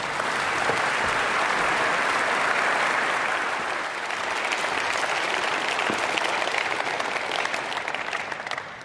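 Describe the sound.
Warm audience applause welcoming a speaker to a church service, a loud, dense and unbroken wash of many clapping hands lasting almost nine seconds.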